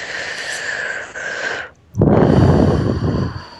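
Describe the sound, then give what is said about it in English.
A person takes a deep breath: a long, airy inhale, then a brief pause, followed by a louder, breathy exhale that fades at the end. “Take a deep breath.”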